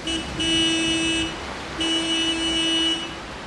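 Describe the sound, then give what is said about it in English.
A car horn honks in two long, steady blasts separated by a brief pause, each a bright sustained tone over a low background rumble. “dashes back to her car, gets in from the passenger side, and honks the horn.”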